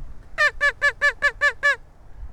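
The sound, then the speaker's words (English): Honking quacks from a duck call blown toward geese and ducks on the water: seven evenly spaced, nasal, harmonic-rich honks in a quick series, loud against quiet background. “I'm giving them the honky quacks.”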